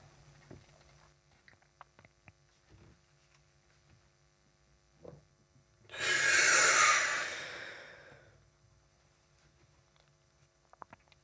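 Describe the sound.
One long exhalation during a breathing exercise: a breathy rush of air lasting about two seconds, rising out of near silence and trailing off, with faint clicks around it.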